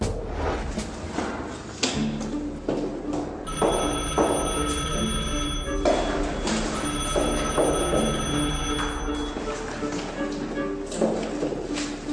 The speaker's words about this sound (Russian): а у меня телефон в квартире звонит